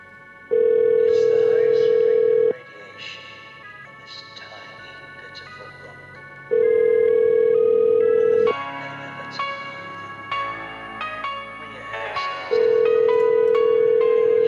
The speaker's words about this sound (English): How are you going to get a straight answer when you won't answer the phone?